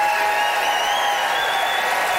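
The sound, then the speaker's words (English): Audience applause at a live debate, the crowd clapping to vote for a debater they support. It is a steady, sustained wash of clapping at even loudness throughout, with no clear peaks or breaks. “It is time to vote, everybody. By applause, who was buoyed by Martha's pro-boycott brouhaha, Arantxa Chavez?”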